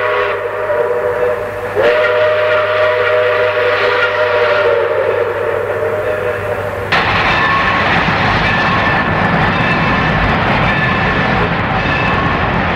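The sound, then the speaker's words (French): A locomotive pushes its wagons along a railway line toward Anduze, making a loud, steady roar. A sustained whistle-like tone holds through the first half and then gives way to a broader, rougher rumble. “Pour le retour vers Anduze, la locomotive pousse donc les wagons au lieu de les tirer.”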